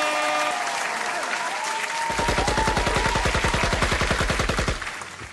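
Gunfire sound effect: a rapid burst of many evenly spaced, loud automatic shots rattling for about two and a half seconds, laid over a tonal background, then cutting off.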